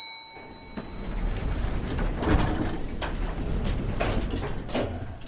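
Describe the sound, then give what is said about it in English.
An elevator: a short, bright chime at the start, then the low mechanical rumble of the car and doors, with a few soft clicks and clunks scattered through. “Now to push the button on the elevator to go up.”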